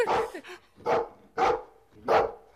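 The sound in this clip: A dog barking: four loud, sharp barks in an even rhythm, with a smaller sound after the first.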